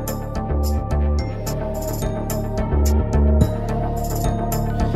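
An electronic music track with a pulsing, repeated low bass figure under a steady beat of bright, crisp percussive hits. The music stays at an even, full level throughout.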